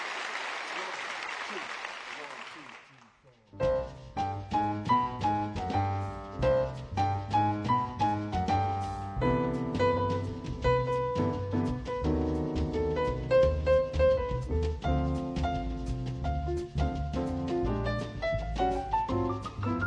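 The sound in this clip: Applause fades out over the first few seconds, then a piano takes over with a lively run of quick struck notes and chords over low bass tones, playing steadily to the end.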